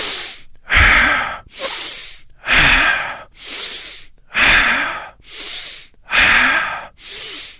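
Forceful rhythmic breathing from a breathing-exercise demonstration, with eight loud bursts of air alternating between rough inhales and hissing exhales and short pauses between them, and no talk.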